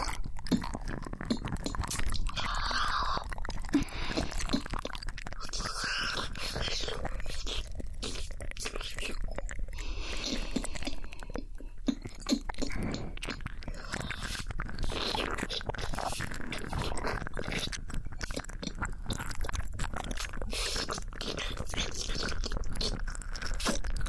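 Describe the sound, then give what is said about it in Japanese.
Wet licking sounds in close-up ASMR: a continuous stream of soft, smacking mouth noises and tiny clicks that runs unbroken for the whole stretch at an even, moderate level. “ペロペロされるのは気持ちいいですか？”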